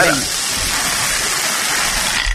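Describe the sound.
A lottery drum spins with numbered balls in a game draw, making a dense, continuous rattling hiss at steady loudness throughout.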